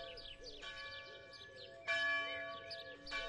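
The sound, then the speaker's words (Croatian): Church bells of the Granešina church ring in several strikes. Bright, overlapping metallic tones hum on between the strikes, and a louder stroke arrives midway. “Zvonjava Granišinske crkve zatiče me na kapi i groblja.”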